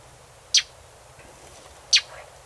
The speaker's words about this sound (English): We have also the call of the mockingbird.